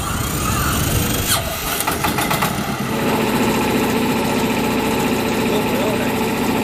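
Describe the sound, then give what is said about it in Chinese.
An engine starts up on the surface of Poyang Lake, a rough sputtering burst giving way to a steady, loud mid-pitched idling rumble with a thin high whine above it. “早晨七点，静静的鄱阳湖面突然传来一阵机器发动的声音。”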